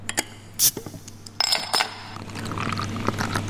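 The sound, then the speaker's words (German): A beer bottle being opened at a West Bank brewery: a short sharp burst, then glassy clinks and a fizzing, pouring liquid sound over a steady low hum. “öffnet eine Flasche Bier”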